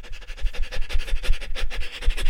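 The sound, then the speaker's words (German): Rapid panting breaths from a breathing exercise, the in and out breaths taken at a very high rate. Many quick, airy puffs follow each other in a dense, steady rhythm, fairly loud and with no speech. “Kommen wir jetzt zum dritten Atemweg und das ist die Hechelatmung. Das heißt, wir versuchen jetzt auf einer sehr hohen Frequenz ein- und auszuatmen.”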